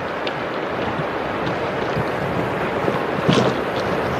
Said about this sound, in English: Jenny Shin stood way right on this tee box because of that westerly wind going left to right across this fairway.